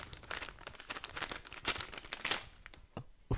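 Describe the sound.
Paper crinkles and tears as an awards envelope is ripped open at an awards ceremony, a quick, faint run of rustles ending in a couple of sharper crackles.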